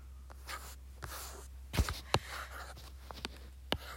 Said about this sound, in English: I'm not gonna be able to finish my drawing in time.